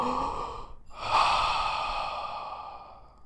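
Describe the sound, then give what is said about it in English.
One big deep breath, taken on request by a person leaning forward for an examination, comes as a soft, airy rush of air with a short pause midway, then swells and slowly fades. “Okay, give me one big deep breath”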